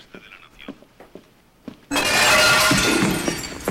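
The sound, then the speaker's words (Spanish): Glass window panes shattering as a zombie breaks through them: a sudden loud crash with sustained crackling debris lasting about two seconds, following a quieter stretch of faint scattered taps. “Un zombi rompe los cristales, introduce las manos y agarra a Ben.”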